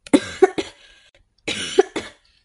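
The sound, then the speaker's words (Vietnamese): Hoarse coughing fit: two clusters of about three harsh, rasping coughs each, separated by a brief pause, loud and with no talk. “Yến Ngọc Thanh quay đi, ho khàn mấy tiếng”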